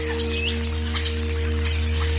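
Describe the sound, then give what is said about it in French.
Faint birdsong with a few thin, high chirps and one short rising call, set over a steady low electrical hum that stays level throughout. “Les oiseaux ici, chantent pas pareil. On dirait qu'ils ont un autre accent.”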